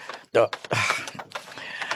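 A drawer creaking as something is put away: a sharp loud bump, then a longer rasping creak of the drawer sliding, trailing into quieter scrapes and clicks.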